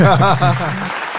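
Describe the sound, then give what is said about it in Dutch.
Applause sound effect played from a button: a short, loud burst of clapping with voices mixed in, lasting only a moment. “Heb jij niet een applausje onder de knop?”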